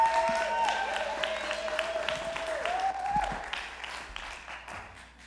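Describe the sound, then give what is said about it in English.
A church audience applauds a guest speaker as he comes up to the front. The clapping starts strong and gradually thins and fades, with a voice talking over it. “Come on, let's give him a hand.”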